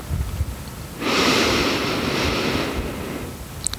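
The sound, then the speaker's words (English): A slow inhale through the nose during a 4-7-8 breathing exercise: a soft, steady, airy rush that lasts nearly two seconds, heard alone without talk. “inhale through your nose for a count of 4.”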